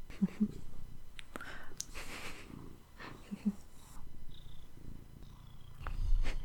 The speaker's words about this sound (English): My cat too has a vibration. I don't know if you can hear her purring, but that vibration is also very comforting.